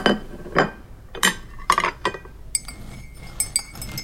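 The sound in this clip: Dishes, glasses and cutlery clink as a table is set, with many sharp, bright clinks and taps at irregular intervals. No talk is heard.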